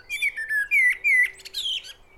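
High, thin chirps of bird chicks begging for food, a rapid series of short whistled notes with no other sound behind them.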